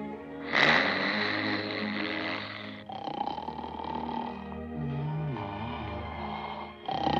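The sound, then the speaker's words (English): A dwarf snoring while asleep in a wall cabinet: two long, loud, rasping snores, the first ending abruptly before the second continues steadily. “As he snores, the cabinet doors open and close.”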